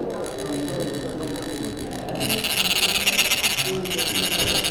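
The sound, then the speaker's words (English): Gritty rasping of metal sticks scraped along small cones of red, blue and yellow dye-colored sand as monks lay grains into a pattern; a steady grainy buzz that grows louder partway through, with no talk. “The monks start out by scooping red, blue, and yellow dye-colored sands into small cones. Then they scrape the cones with metal sticks.”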